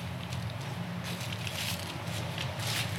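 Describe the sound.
Footsteps of people walking across the Kossehof farm grounds in Bokeloh, Meppen, toward box trees hit by box tree moth, a faint, steady crunching shuffle with a few slightly louder steps and no voices.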